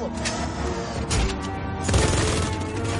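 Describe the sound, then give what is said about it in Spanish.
Machine-gun fire sprays at cars during a chase scene in the film Fast & Furious 8, loud dense bursts churning within a thick, booming action soundtrack. “Un agente ruso dispara una ametralladora contra los coches controlados.”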